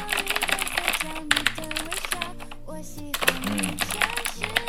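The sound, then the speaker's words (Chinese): Loud, rapid clicking of a mechanical keyboard with blue switches being typed on, many sharp clacks in an uneven rhythm over a steady tonal background. “那么我现在手里也是，也拿着一把青轴的键盘，大家可以听一下。”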